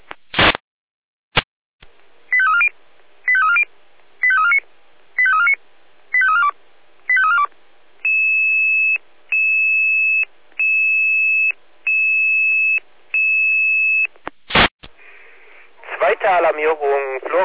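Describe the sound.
Fire brigade alerting tones over the radio for a triggered home smoke detector: six quick warbling chirps, then a run of steady high beeps, ending in a harsh burst of buzzy, data-like noise.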